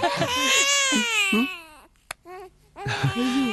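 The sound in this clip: A newborn baby cries in loud, high, wailing bursts separated by a brief pause.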